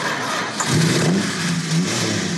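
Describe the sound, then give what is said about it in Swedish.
A Plymouth Fury car engine revs loudly, its rumbling note rising in short surges over a constant, rough mechanical roar. “Och det här är en Plymouth Fury av samma typ och samma årsmodell”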